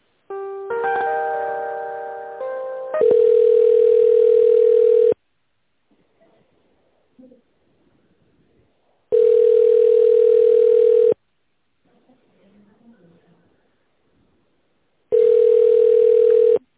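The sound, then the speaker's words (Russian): Telephone ringback tone as an office call is transferred to the accounting department: a brief stepped electronic tone sequence opens, followed by three steady two-second tones separated by pauses with faint, indistinct background sounds. “Сейчас соединю вас с отделом бухгалтерии, оставайтесь на линии.”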